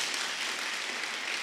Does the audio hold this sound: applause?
yes